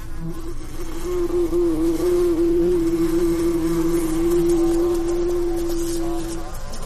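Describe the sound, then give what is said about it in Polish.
Loud, steady buzzing of a swarm of flies descending on Egypt, from tiny fruit flies to big black and green-bellied flies, forms one continuous droning hum that wavers slightly in pitch and lasts throughout. “Następnego dnia na Egipt zleciały się muchy.”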